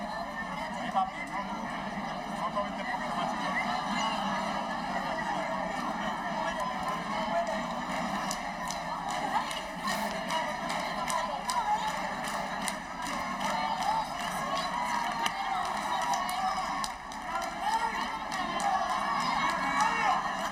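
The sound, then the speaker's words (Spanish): A crowd applauds and cheers the king and queen during a public visit in Ceuta: continuous, fairly faint crowd noise with clapping, scattered shouts and voices, without pause. “Dejo estos silencios para que ustedes puedan escuchar, porque también es sin duda información, pues cómo están siendo recibidos los reyes, con aplausos, con vítores”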